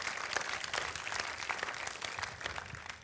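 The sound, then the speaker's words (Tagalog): Applause from a church audience at The Rock City Church clapping for the Lord during a sermon, a faint, steady patter of many hands throughout. “Palakpakan nga po natin yung Panginoon.”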